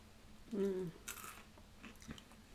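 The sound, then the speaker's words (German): Chewing of dried, roasted edamame, faint crisp crunches with a few sharp bites scattered through the stretch, quiet and close. “Also wir essen gerade getrocknete Edamame. Geröstete, ja.”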